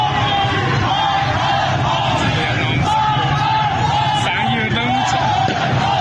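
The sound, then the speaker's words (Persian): Protesters chanting slogans against the Islamic Republic's leader and officials at a street protest in Izeh, Iran: a loud, dense crowd of overlapping shouting voices that stays steady throughout with no pauses. “این اعتراض‌ها از جمله در شهر کرد اندیمشک، درود و ایزه رخ داده و در آن معترضان علیه رهبر جمهوری اسلامی و دیگر مقام‌های نظام شعار دادند. صدای ویدیویی از ایزه را می‌شنوید.”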